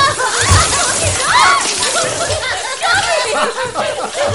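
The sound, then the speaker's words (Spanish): Water sprays from a tap onto people, splashing and sloshing in bursts while voices chatter and laugh over it. “los moja con el grifo.”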